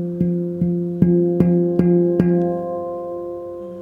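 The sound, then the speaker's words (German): A finger strikes a tuned oval steel drum six times at an even pace, sounding the same low note with rich ringing overtones. After the last touch the tone sustains and slowly fades. “der Finger berührt an einer Stelle das Instrument und was du hörst, ist nicht ein Ton irgendwie.”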